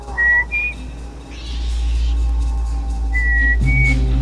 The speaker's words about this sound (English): purses his lips and whistles